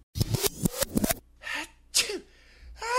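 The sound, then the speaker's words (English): A sneezing fit: a quick run of loud, sharp sneezes packed into the first second, then a few softer breathy bursts with short pauses between them. “Who's having a sneezing fit?”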